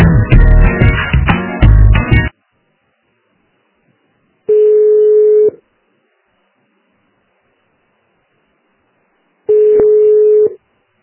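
Telephone tones while calling back after a dropped call: a dense burst of dialing tones, then two long, steady single-pitched ringback tones separated by silence.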